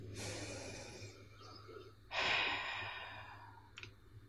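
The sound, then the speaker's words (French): Two deep breaths through the nose during a guided relaxation exercise, with feet on the floor and eyes closed. Both are soft, airy rushes with no talk, the second louder and longer than the first. “Mais mets tes deux pieds au sol, ferme les yeux, puis on respire un bon coup ensemble.”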